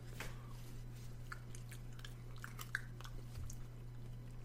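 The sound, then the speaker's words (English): Soft chewing and biting of food with marinara sauce, a steady run of faint, wet mouth clicks and crunches over a low, constant hum. “Also, you're welcome for the eating ASMR.”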